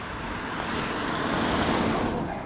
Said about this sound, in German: Und jetzt kommt ein Auto.